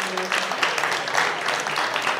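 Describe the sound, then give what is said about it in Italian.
Loud audience applause at a festival event as the crowd is thanked, many hands clapping in a thick, continuous patter that stays even from start to finish. “Radio Popolare, un applauso a tutti voi che siete qua, grazie.”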